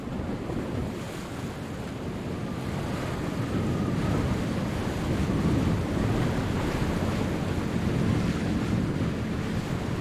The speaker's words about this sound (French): la mer toujours inapaisée roulait de longues et puissantes lames et la brise soufflait en rafales vigoureuses